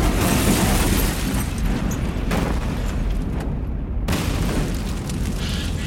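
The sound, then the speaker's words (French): A car bomb explosion in Malta gives a deep, loud roar of blast noise that stays steady and dense for the whole clip, with no voices. “Mais 3 minutes plus tard, une explosion retentit. Une bombe.”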